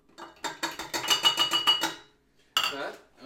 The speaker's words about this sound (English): We're mixing in, of course, the confectioner's sugar. 3 cups worth of it. We're going to be coming in here. So this is cup number 1.